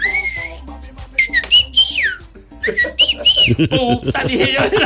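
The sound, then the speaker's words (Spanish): A person imitates whistling with several short, sliding whistle notes that rise and fall in pitch, followed by talk near the end. “Y solo oí silbidos así. Así silbaba”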